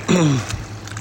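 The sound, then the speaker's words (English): Boat engines drone over the water in a steady, broad wash of noise, with a low tone that falls in pitch near the start before the roar settles. “And the boats are getting loud.”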